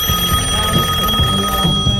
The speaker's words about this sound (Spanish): Me están llamando, espera. ¿Quién carajo? ¿Está sonando?